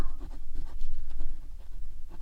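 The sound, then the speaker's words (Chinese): A pen scratches across paper as notes are taken, making a continuous run of quick, rhythmic strokes. “继续记笔记吧”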